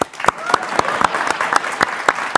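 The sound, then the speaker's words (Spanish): An audience applauds in a talk show setting. The clapping is steady and lively, with sharp, regularly spaced claps standing out above the general patter throughout. “Un aplauso a eso.”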